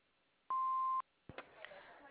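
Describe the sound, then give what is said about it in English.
Answering machine beep: one steady, mid-pitched electronic tone lasting about half a second, sounding alone before a voice starts speaking right after it. “Hello, we are not available now. Please leave your name and phone number after the beep.”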